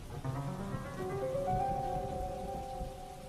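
Heavy rain makes a steady, dense hiss that stays even and unbroken throughout, with soft sustained tones humming faintly underneath.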